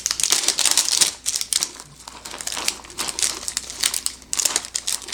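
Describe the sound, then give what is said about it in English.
Plastic packaging from a small single-serving meal crinkles and crackles as it is pulled open, giving loud, dense, continuous rustling with many sharp bursts over about five seconds, with no talking. “so much packaging for that. And you can see it's kind of difficult to get off here.”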